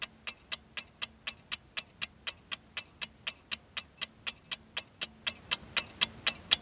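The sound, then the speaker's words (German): Ticking of a quiz timer clock: many steady, evenly spaced clicks, crisp and faint, running on their own with no talking. “Ah, tick, tick, tick, tick, tick, tick.”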